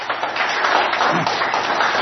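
Women in a gathering clap together, a dense, continuous patter of many hands, steady and fairly loud throughout.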